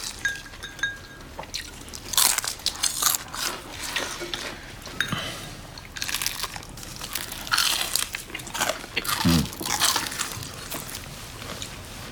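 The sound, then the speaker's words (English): Crunching bites into battered prawns dipped in soy sauce, with many crisp crunches and chewing noises spread unevenly throughout. “Using their fingers, they pick up battered prawns. Oh, yeah. Oh, yeah. Hot. She dips a prawn in soy sauce, then crunches into it.”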